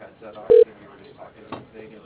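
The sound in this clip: A short, steady telephone line tone sounds while a caller reaches a lighting company. The single beep cuts in briefly through a recorded voice on the line.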